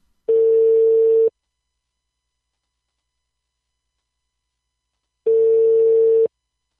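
An unanswered telephone call rings out as two steady, mid-pitched ring tones, each about a second long, separated by a long stretch of silence.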